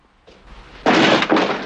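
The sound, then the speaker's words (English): A police officer kicks an apartment door open: a loud, sharp crash bursts out after a low rumble and stays heavy, surging once more before fading. No voices are heard. “The two cops creep up to an apartment door with their weapons at the ready. Murphy kicks the door open.”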